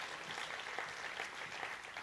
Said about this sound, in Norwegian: La oss gi en applaus til vår far i himmelen.